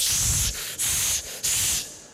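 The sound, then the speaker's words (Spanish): Hairspray being sprayed from a can that is pressed, giving several short, steady hissing bursts in quick succession with brief gaps between them. “Y para las más antiguas se recordarán que había una laca que se apretaba.”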